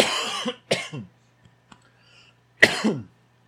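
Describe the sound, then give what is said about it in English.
Harsh coughing from something going down the wrong pipe: a long rasping burst, a shorter one right after, then a final fit following a pause, with faint small clicks between. “went down the wrong pipe. I don't know what happened there.”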